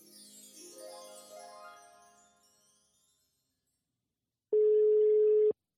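A telephone ring tone from an outgoing call: one steady mid-pitched tone lasting about a second, alone after a short musical jingle fades out and a brief silence.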